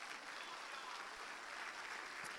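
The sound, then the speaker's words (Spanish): Applause from an audience during a Spanish-language church service, after a call to applaud Christ. Dense, even clapping holds at a steady, fairly faint level throughout, with no voices over it. “Entonces, gloria a Dios, un aplauso a Cristo.”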